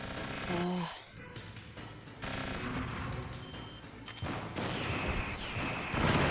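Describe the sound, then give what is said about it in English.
Stinger missiles fired in rapid succession in Metal Gear Solid Integral, a handful of booming, crackling blasts breaking through a low, rumbling game soundscape. “No, I'm gonna like shoot several missiles and see what happens. Oh, shit. There's the rapid fire on the Stinger missile.”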